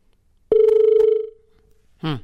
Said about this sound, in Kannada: ಒಂದು ಕರೆ ಇದೆ.